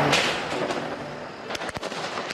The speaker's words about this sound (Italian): Fuochi d'artificio mentre si trasloca dalla vela celeste.